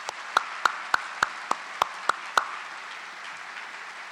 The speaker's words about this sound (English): Please give them a round of applause.